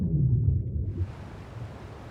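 A whale calls underwater with a low, moaning tone for about a second, then fades into a soft, steady wash of water noise.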